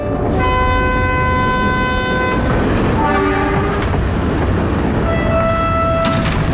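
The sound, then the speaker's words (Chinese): A train arrives at Haihe railway station with a loud, constant rumble, overlaid by long sustained horn-like tones that stop, return briefly midway and sound again near the end. “准备下车子，检查一下自己行李。 列车到达海河火车站。”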